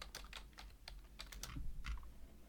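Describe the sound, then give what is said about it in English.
Typing on a computer keyboard gives faint, quick bursts of clicking keys in an uneven rhythm, with no talk. “Let me quickly type it. Let me make sure it's the right thing.”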